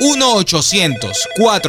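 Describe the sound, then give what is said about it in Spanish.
A telephone rings under a loud voice, the ringing woven through short bursts of speech. “Vamos a marcar ya.”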